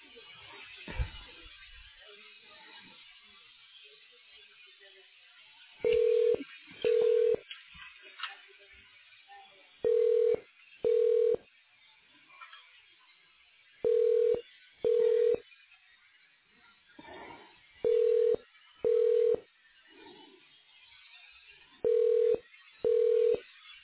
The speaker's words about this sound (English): If you know your party's extension, please place a 4 in front of the extension and dial the extension at any time.